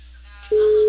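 A telephone ringing tone on an outgoing call from a cable company: a faint background hum gives way halfway through to a single steady, mid-pitched tone that holds to the end.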